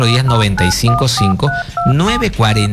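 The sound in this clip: Telephone keypad dialing tones, a quick run of several short, bright two-note beeps in an uneven rhythm, sounding under and between a voice that is talking loudly.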